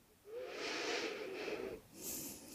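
Deep breathing in and out: a long, slow, airy inhale with a soft hissing rush, followed by another breath beginning, steady and unhurried with no talking.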